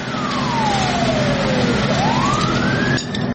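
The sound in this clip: Fire engine siren as trucks arrive at a building fire where a child and caregiver were trapped: a loud, steady wail sliding slowly down in pitch, then sweeping back up, over a constant low rumble.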